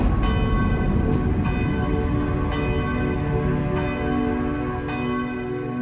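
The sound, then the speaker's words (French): Church bells of the parish church at Ruf ring on a December late morning in a dense, sustained peal, with a few fresh strikes renewing the overlapping, resonant tones. “Le 5 décembre 1956, fin de matinée, les cloches du Ruf sonnent, le temps s'arrête de nouveau.”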